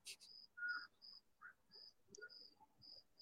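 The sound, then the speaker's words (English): Crickets chirp in short, high-pitched trills that repeat at uneven intervals, fairly faint and thin against a quiet background. “I hear crickets.”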